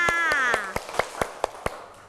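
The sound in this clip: Children clap for a classmate with eight crisp hand claps in a steady, even rhythm; a voice speaks over the first few, its pitch falling, then the remaining claps ring out alone.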